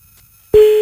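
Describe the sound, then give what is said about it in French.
After near silence, a single steady electronic telephone tone starts abruptly and holds until the end as a call reaches an answering machine. “Tout ça pour tomber sur le répondeur.”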